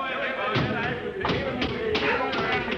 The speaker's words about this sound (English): Drop to the hatch. It's about 6 feet. It's clear. Hurry up. Here I go.